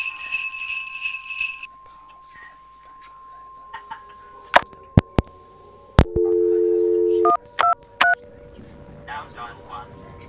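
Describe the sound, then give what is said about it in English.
Telephone handset dialing tones: a few sharp clicks, then a steady held tone, then three short electronic beeps in quick succession, heard alone and fairly loud. “Be patient. Wait for several seconds for the handset to connect. You have dialed 123.”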